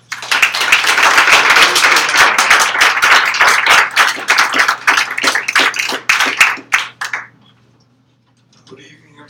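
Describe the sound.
Audience applause at a comedy show as a comedian is brought on stage: dense, steady clapping for about seven seconds that thins out and dies away into quiet.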